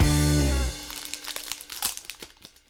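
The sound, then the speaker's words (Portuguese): A Magic: The Gathering Shadows over Innistrad booster pack is opened. A brief loud sustained tone gives way to many sharp crinkles and rustles of the foil wrapper being torn and handled. “Abrimos aqui um pacotinho de Magic, né? Vamos falar sobre algumas cartas. Um pacotinho de Shadows in Innistrad.”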